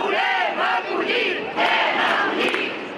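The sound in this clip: Crowd chanting at a pro-refugee march in Barcelona, with many voices shouting in rising and falling rhythmic phrases, loud and sustained, with brief dips between the phrases.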